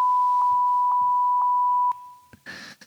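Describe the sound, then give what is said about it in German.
A censor bleep: one steady, high-pitched electronic tone held for about two seconds, loud and continuous, followed by a few faint clicks and a short soft burst of noise. “Piep ich alle. Dann piep die alle. Ich piep die echt. Ich piep die echt so. Piep.”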